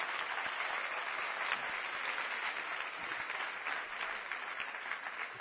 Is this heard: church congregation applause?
yes